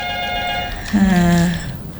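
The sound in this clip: A telephone rings with an incoming call to a radio show, a sustained electronic ring tone that breaks off and gives way to a lower, buzzing tone.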